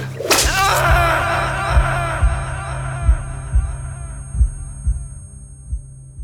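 A sharp whip crack lashes across a back once at the start, then a steady series of low, throbbing thuds pulses beneath a faint hum.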